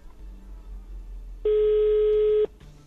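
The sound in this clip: Telephone call ringing on the line: one steady electronic ring tone lasting about a second, loud and alone over a faint background hum.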